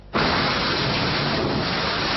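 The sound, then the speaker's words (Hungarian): A hailstorm pounds a park in Sydney with large hailstones. The impacts start abruptly and build into a loud, dense, unbroken roar that stays steady throughout. “Néhány perc alatt befehéredett ez a park Sydneyben a lezúduló jégtől.”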